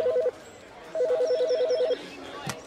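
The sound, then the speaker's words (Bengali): A telephone rings in two trilling bursts: the first is brief, the second lasts about a second. A soft click follows, over faint background noise. “ঠিক তখনই শ্রীবাস্তব সাহেবের টেলিফোনটা বেজে উঠল।”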